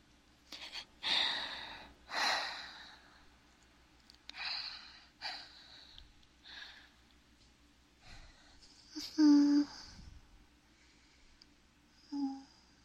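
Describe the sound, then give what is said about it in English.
A series of breaths, gasps and sighs, heard alone with no talk. Some are soft and airy, and one is fuller and more voiced near the end, with quiet pauses between them. “It feels so nice to breathe.”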